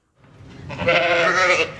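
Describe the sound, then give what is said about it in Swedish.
A sheep bleats at the Nordvik agricultural school in Sweden: one drawn-out, wavering call that swells quickly and holds for over a second before cutting off, heard alone. “Jag tycker om får. De är mer lätthanterliga, tycker jag.”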